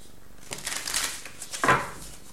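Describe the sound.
A Tarot of the New Vision deck being shuffled and a card drawn: a few rustling bursts of cards, then a sharper, louder flick near the end.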